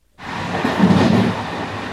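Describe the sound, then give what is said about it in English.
Overnight sleeper train running from Paris to Barcelona, a broad, steady rumbling roar that starts abruptly after a moment of quiet and holds at an even level throughout. “Ah, the romance of the night train. Or really the charmingly cramped sleeping quarters. My sleeping carriage on this ride from Paris to Barcelona”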